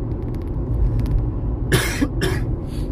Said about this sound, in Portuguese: A garganta seca. Atendi muita gente falando muito, desculpa.